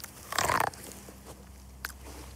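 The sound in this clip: A single crisp bite into a corn cob that looks dented at the top: one short, faint burst of crunching, then near silence apart from a small click a moment later.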